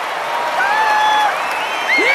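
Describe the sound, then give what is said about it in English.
Crowd cheering and clapping at a youth baseball game, a steady broad roar with shrill whistles cutting through, the last one sweeping upward. “The Cubs in the dugout cheer wildly as the runners scamper home and high-five each other.”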